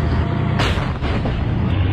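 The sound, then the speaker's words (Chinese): A tank gun fires an armor-piercing round during a short-halt firing drill. One sharp boom cuts through continuous loud engine and track noise. “全体注意，左前方敌坦克，穿甲弹，短停线列，执行。”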